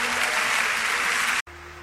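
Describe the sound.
Congregation applause during a church service: steady, dense clapping that cuts off abruptly and leaves only a low hum.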